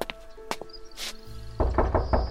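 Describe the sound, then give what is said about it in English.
Dull knocking on the door of a house in a Cotswolds village in 1947, a few thudding raps after some lighter scattered taps, over a low tonal background. “On the 13th of September, 1947, there's a knock on the door.”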